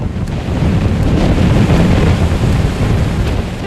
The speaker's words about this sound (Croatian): Vanka je vedro, s već zagasitim plavetnilom sumraka. Vjetar je priličan.